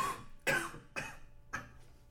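Three dry coughs from a person who is under the weather, each a short rough burst with brief pauses between them.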